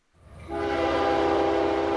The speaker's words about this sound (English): A lone train whistle pierces the quiet of an autumnal Delaware countryside moments before a train sweeps around a broad curve.